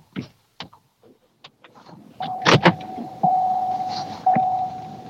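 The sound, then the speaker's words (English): A car beeping with a steady, mid-pitched electronic tone that holds for about three seconds and swells twice. Scattered clicks and taps come before it. “Now you hear your car beeping.”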